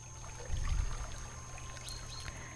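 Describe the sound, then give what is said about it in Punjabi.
Water runs through a small stream in a steady, quiet trickling wash, with a brief low swell early on and no voices. “ਇਹ ਉਹ ਸੋਹਣੀ ਜਿਹੀ ਨਦੀ ਹੈ ਜਿਹਦੇ ਵਿੱਚ ਪਾਣੀ ਦੀ ਆਵਾਜ਼ ਸਾਨੂੰ ਅਲੱਗ ਤੋਂ ਸਕੂਨ ਦੇ ਰਹੀ ਹੈ”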